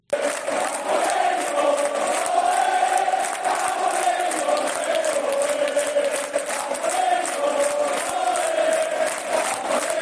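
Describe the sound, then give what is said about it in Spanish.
Stadium crowd of 15,500 Real Oviedo fans at the Carlos Tartiere sending off their team before a derby: a loud, sustained mass chant of many voices in unison, with rapid claps punctuating it throughout. “y este es el sonido de el Carlos Tartiere ayer, el estadio del Real Oviedo, 15.500 espectadores que despidieron así al equipo.”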